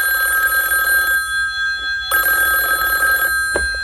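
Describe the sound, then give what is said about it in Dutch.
A telephone rings in two long bursts separated by a short pause, a steady, bright, high electronic trill with no talk over it. “Dit is de telefoon!”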